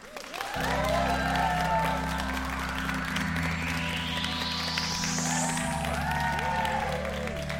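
A live audience claps and cheers a warm welcome for two guests, with some whoops. Steady tonal music with a rising sweep plays alongside, and the applause stays fairly even throughout.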